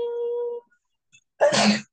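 A single sharp sneeze bursts out loud and short near the end, after a brief tonal sound and a moment of quiet.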